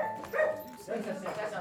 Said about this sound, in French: Ça, c'est un chien, ça.